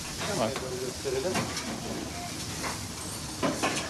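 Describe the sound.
Liver sizzles in a frying pan, Edirne-style pan-fried liver cooking at a busy restaurant in Edirne, a steady hissing crackle with faint voices in the background.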